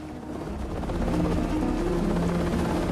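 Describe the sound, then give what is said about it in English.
Helicopters carrying evacuated children lift off, their rotor drone growing louder over the first second before settling into a steady, heavy whir. “the flight crew are given the all clear to take off. With the cargo of children waving goodbye, the choppers slowly take to the sky.”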